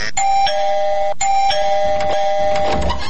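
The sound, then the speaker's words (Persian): A doorbell rings at a house gate at night, playing a clear, ringing electronic chime melody of bright repeated tones that restarts partway through and fades toward the end, with no talk. “خب باش که من زنگ دروازه شان پیدا کنم”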